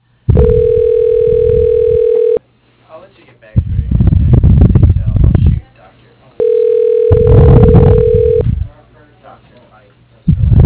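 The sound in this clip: Telephone tones while an extension is being dialed: two steady, flat tones of about two seconds each, separated by a pause, with people talking alongside.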